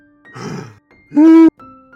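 A person imitates heavy wheezing after climbing a hill: a rasping, breathy gasp followed by a short, strained, voiced groan, two bursts in all.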